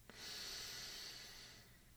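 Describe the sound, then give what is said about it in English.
A single long, deep breath drawn at the close of a guided calming exercise: a steady, breathy hiss that swells quickly and holds for about a second and a half before tapering off. “We'll end with a final inhalation”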